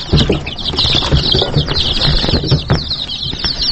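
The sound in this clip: Many high, rapid chirps from chicks kept by a resident of housing for displaced people overlap in a continuous, busy chatter, with soft low rustling and thumps beneath.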